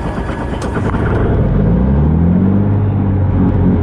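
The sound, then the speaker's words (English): Engine starting and revving in a manual vehicle with a push-button start, out in the Swedish countryside: a loud, steady low rumble, with an engine tone that climbs in pitch through the second half. “So basically press the on button there, and then you push these two together. Press start, put your foot in the accelerator.”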